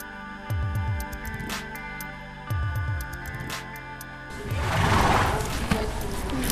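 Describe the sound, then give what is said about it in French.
A horse eating: short bursts of rapid, crunching chews recur a few times over a steady background, followed by a louder stretch of rough, rustling noise. “Ça, c'est le bruit d'un cheval qui mange.”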